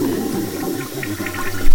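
A toilet flushing in a bathroom: a loud, churning rush of water with gurgling swirls, swelling into a stronger surge right at the end.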